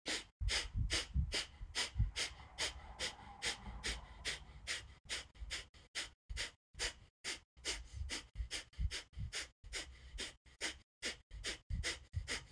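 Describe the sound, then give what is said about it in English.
Rapid Breath of Fire yoga breathing: many short, sharp, evenly spaced breaths in a fast, steady rhythm, moderately loud and unbroken for the whole stretch, with no talking. “So we're going to try this Breath of Fire. You'll see how it feels. I'm just going to do it for maybe 30 seconds and you can join me or not.”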